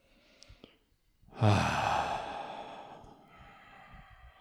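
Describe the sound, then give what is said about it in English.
A deep breath in and out: after a faint start, a loud, breathy, sigh-like exhale comes in suddenly and trails off slowly over about two seconds, alone with no talk. “Take a deep breath in and then let it out.”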